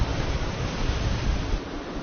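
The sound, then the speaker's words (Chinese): Rough sea waves whipped up by a typhoon in a turtle bay make a continuous loud roar of churning surf mixed with gusting wind noise, with no voices. “因为台风影响，这天的海龟湾内风大浪急，虽然有自稳系统帮助王胜伟控制潜水器的平衡，但台风让整个大海波涛汹涌”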